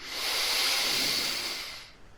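A deep inhalation during a guided relaxation breathing exercise. A steady, airy hiss swells and holds for about two seconds, then fades, with no voices over it.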